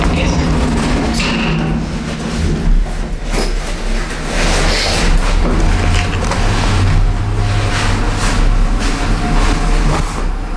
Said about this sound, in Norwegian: Heisen går opp.